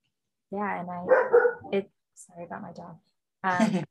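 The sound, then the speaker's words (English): A dog barks indoors during a conversation, in short yapping bursts grouped into three clusters, fairly loud and heard alone. “sorry about my dog.”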